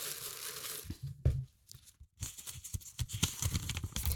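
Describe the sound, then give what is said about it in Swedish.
A paper slip is drawn from a pile of notes with crisp crinkling and papery scraping. A short lull follows, then another busy stretch of rustling. No one speaks. “Jag trekker första lapp.”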